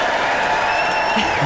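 Dense applause from a packed capacity concert crowd cheering Lulu at a show with the BBC Concert Orchestra, a steady wash of clapping that holds at an even, fairly loud level from start to finish.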